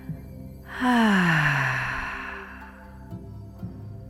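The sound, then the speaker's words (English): A deep breath is let out through the mouth with a voiced sound, a loud sigh lasting about a second and a half that falls in pitch and fades, followed by quiet breathing. “take a deep breath in and exhale through your mouth with a sound.”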